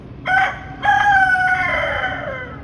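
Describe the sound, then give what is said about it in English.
A rooster crows in a posted video: a short call, then a longer drawn-out crow that drops in pitch at its end, loud and with no other sounds. “And so she decides to post a video of the rooster”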